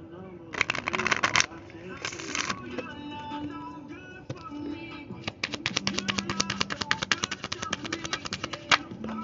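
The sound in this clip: Oracle cards are shuffled and drawn by hand, with a couple of short papery bursts early on, then a long run of quick, crisp snaps and ticks as the deck is riffled.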